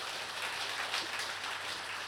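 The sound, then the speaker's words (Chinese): Faint applause from a church audience, a soft, even patter of many hands clapping that stays steady without peaks or breaks. “我们给鼓掌啊，主里面。”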